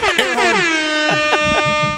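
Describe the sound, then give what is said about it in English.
An air horn sounds one loud, sustained blast lasting about two seconds. Its pitch slides slightly lower at the start and then holds as a steady, harmonic-rich blare. “Horn. The air horn.”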